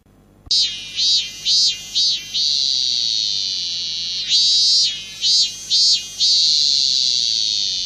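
Robust cicada (minminzemi) chirping: a loud, high, buzzing tone that pulses a few times before holding steady, then repeats the same pulsing-then-sustained pattern.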